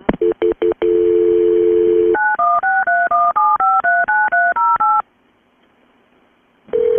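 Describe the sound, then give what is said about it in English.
Touch-tone dialing beeps as a 911 emergency call is transferred to the state police: a quick burst of short tones, one longer steady tone, then a rapid run of many paired tones, a stretch of silence and one more tone. “Once she figures out that she's in a different location, this is where she transfers Shannon's call.”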